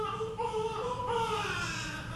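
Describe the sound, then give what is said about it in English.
Newborn babies in a maternity ward cry with thin, wavering, high-pitched wails. The crying is steady and moderately loud, with no pause through the whole clip. “At the nearby maternity ward, there are just two rather hungry newborns surrounded by empty cribs.”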